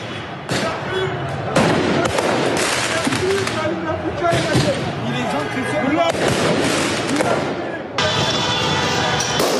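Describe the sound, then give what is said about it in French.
Firework mortars are fired at police during street unrest in Paris after a football club qualified for the Champions League final. Several loud bangs and crackling bursts come over and over through a continuous roar of crowd noise and voices. “Ici, des policiers sont ciblés par des tirs de mortier.”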